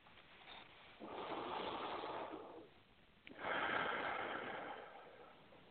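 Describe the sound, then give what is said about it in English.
A deep breath during a guided relaxation exercise: a long, soft, airy inhale, a short pause, then a long, fuller exhale that fades out, heard alone. “And take another nice deep breath.”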